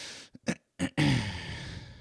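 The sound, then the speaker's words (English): Throat clearing with a deep breath: a few short, rough throat bursts separated by brief silences, then a longer, steady, breathy sound that carries on to the end. “it's a deep breath and I clear my throat, and that's a tell of I'm holding back something”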